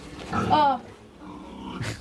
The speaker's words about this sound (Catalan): Vinga, suposo que heu adivinat que està als porcs.